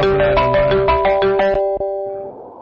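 A melodic telephone ringtone plays a few repeated electronic tonal notes in a steady pattern, then stops abruptly, leaving a faint background hiss.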